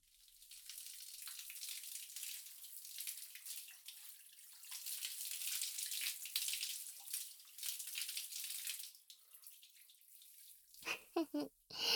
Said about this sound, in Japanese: とりあえずそのまま頭洗い流しちゃって。